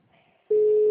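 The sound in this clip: A telephone call tone sounds while a number is dialed. After a brief low murmur, a single steady, loud tone starts abruptly and holds an even pitch to the end.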